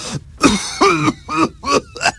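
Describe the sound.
A sick person coughs in a quick fit of several harsh, voiced, throaty coughs, spaced about half a second apart and fairly loud.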